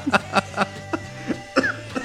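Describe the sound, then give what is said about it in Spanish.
A person coughs in a quick series of short, fairly quiet bursts, several in about two seconds, separated by brief gaps. “Estás tosiendo.”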